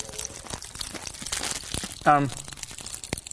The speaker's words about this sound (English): Pop them right pop rocks in and soda. And there they are. Oh, yeah. Quite fun. They're doing their thing.